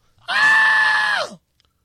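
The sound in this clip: A man screams once in a single sustained, high-pitched cry lasting about a second, loud and steady before its pitch drops sharply as it breaks off, leaving silence.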